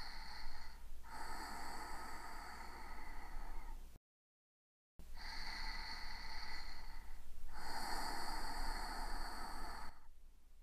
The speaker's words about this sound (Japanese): 日々の疲れやストレス、体に溜まった悪いもの全部吐き出すつもりで息を吐いてね。